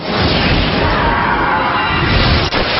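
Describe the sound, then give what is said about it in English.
A Gamma Drain attack effect from a turn-based monster battle video game gives a loud, dense whooshing roar that holds steady for about three seconds before a brief dip near the end. “Hydric used Gamma Drain.”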